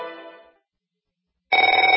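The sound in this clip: A telephone rings in two bursts separated by a short silence. The first trails off, and the second is a loud, rapidly warbling electronic trill.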